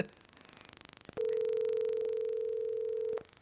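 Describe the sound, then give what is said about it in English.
Telephone dial tone while placing a phone call: a click, then a steady, unbroken single tone holding for about two seconds before cutting off abruptly, with no talking. “Oh, I'm going to make a phone call, too.”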